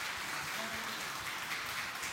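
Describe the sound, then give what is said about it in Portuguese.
A church audience applauds during a worship service, a dense, steady wash of clapping that holds at an even level for the whole stretch, with no break and no single claps standing out. “Vamos aplaudir a Deus pela vida dos visitantes.”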